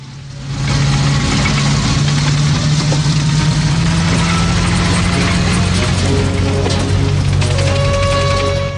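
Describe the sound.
Deep, heavy engine rumble of a tank arriving in a camp and rolling past, loud and continuous with a low droning tone and rough mechanical texture that swells in at the start and holds steady throughout.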